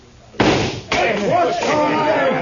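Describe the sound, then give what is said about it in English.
A sharp rifle shot bursts out as a lamp is shot out on the first try, followed shortly by a second hard impact, and then talking carries on. “a man bet me $10 you couldn't shoot out that lamp on the first shot.”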